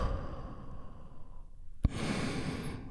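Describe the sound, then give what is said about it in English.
A deep breath is released in one long, audible exhale during a guided relaxation exercise, a soft breathy rush that begins abruptly after a quiet pause and continues steadily to the end. “let's take one big, deep healing breath all together. Here we go. And release.”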